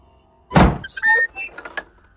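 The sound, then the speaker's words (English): A knock on a door lands as a single heavy, loud thud. Fainter tonal and clattering sounds follow it. “When he reached the door, he knocked on it.”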